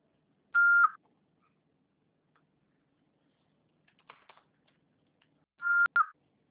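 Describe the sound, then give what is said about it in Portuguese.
Voicemail recording beeps: two short, steady electronic tones separated by a long quiet gap, with a few faint clicks in between. “Após o sinal, fale o seu nome e o seu recado.”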